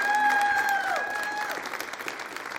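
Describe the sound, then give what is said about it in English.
Church audience applauding, a dense wash of clapping that starts full and gradually thins and fades, with a faint sustained tone at the start. “Give him a hand.”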